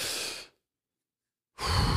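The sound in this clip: Two deep, slow breaths taken to calm an anxiety attack: a long breathy exhale fades to silence, then another full, airy breath starts after a pause, close and clear with no talking.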